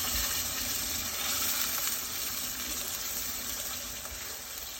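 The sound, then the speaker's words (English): Loud, continuous sizzling and hissing as about 600 ml of water is poured into rice in a hot pan on the stove. The noise stays steady and fades slightly toward the end. “600 ml of water that I'm now adding. Don't be scared. Into the rice.”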